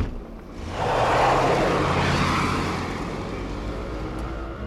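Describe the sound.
A car drives off to follow a taxi, its engine noise swelling into a broad, full rush after a quiet moment, then holding steady and loud without any talking.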